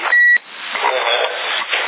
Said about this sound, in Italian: Ma bellino questo bip.